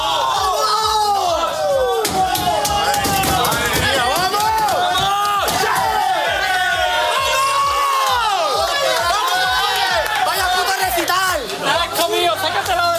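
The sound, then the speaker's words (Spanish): Spanish national football team celebrating in its dressing room after a victory: loud, continuous cheering, shouting and excited chatter from many overlapping voices throughout. “Este es el sonido del vestuario español tras la victoria.”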